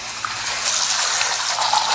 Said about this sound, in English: Please turn off the faucet.